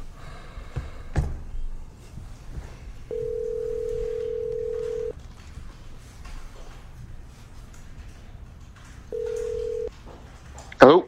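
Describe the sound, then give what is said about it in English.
A telephone line gives two bursts of a steady, mid-pitched tone, a longer one followed later by a shorter one, separated by quiet handling noise, as a call is placed. “Dial Mike up, see if he's around.”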